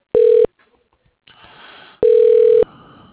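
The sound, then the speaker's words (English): Telephone line tones play as a call is transferred to an assistant's voicemail: two loud, steady mid-pitched tone bursts, the second longer, separated by a stretch of faint line noise. “But I can put you into the assistant, Joan Rusin's voicemail.”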